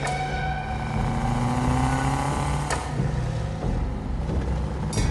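Car engine driven hard as the driver floors it to pull away from a pursuing car, heard as a loud, steady droning hum with a couple of brief sharp noises and no voices.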